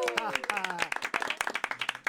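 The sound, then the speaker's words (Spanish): Clapping for a radio programme's second anniversary: many sharp, fairly regular hand claps carry through the whole moment, with a voice speaking briefly at the start. “Pues regresamos con este aplauso más que merecido para pues este gran programa”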